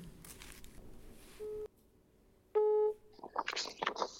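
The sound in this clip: Two steady ringback tones sound as an outgoing telephone call rings out, each one a flat, even beep with a pause between. A voice then answers and starts talking.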